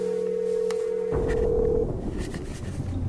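Steady telephone line tones as an old number is called: a two-tone hum that narrows to a single tone, then fades into hissy background noise.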